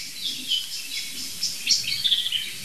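Blackbird and song thrush singing, a run of many bright, high chirps and short warbled phrases at moderate level over a soft, steady hiss, with no voices.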